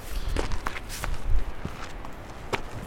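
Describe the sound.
Footsteps on a mountain hike in the Valais Mattertal, heading back downhill from a glacier lake: a few uneven steps and scuffs over steady outdoor background noise.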